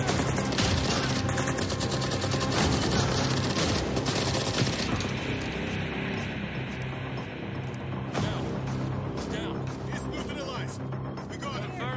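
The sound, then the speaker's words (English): Gunfire fills an armed shootout, with dense, continuous bursts of rapid shots crackling almost without pause, loud and harsh, while people shout urgently over the barrage. “Shit! Cover fire! Cover fire! Get down! Return fire!”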